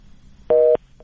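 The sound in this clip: A short busy-signal beep comes from a telephone line cut off during a call. It is one clear, mid-pitched buzzy tone of about a quarter second over a quiet hiss, followed by a fainter brief blip.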